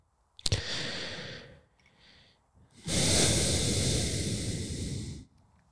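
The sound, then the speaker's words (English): Close breathing straight into a microphone: a sharp click, a hissing exhale, a faint softer breath, then a long, loud, rushing breath that fades out. “they don't want to hear you breathe.”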